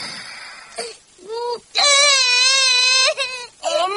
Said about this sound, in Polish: Kochanie, nie płacz.